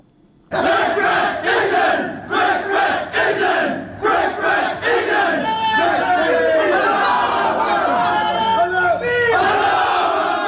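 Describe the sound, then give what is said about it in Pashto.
Members of Afghanistan's national cricket team cheer and shout in celebration of a win, in their room in Zimbabwe. Many overlapping voices yell loudly and continuously after a brief quiet start. “دا د افغانستان د کرکټ د ملي لوبډلې غړي دي چې په خپل خونه کې د کرکټ د بری لامل د خوشحالي ناره وهي”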